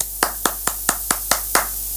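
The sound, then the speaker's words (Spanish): Hand claps at a shop opening, seven sharp, evenly spaced claps in a quick steady rhythm over a low constant hum. “Ahí están los aplausos.”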